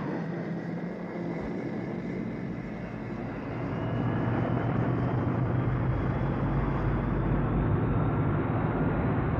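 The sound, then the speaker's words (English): Spaceship thrusters firing at full power make a dense, steady roar like a jet engine, with a deep rumble that grows louder partway through and then holds at full strength, with no voices. “Full power on the thrusters”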